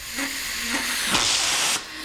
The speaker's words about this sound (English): Rockville, Maryland, white vapor hisses from hoses as they charge 8 steel tanks with liquid nitrogen